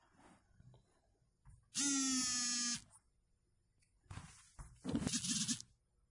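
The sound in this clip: An incoming phone call rings as a loud, steady buzzing tone lasting about a second. After a pause come rougher buzzing bursts, with near silence otherwise.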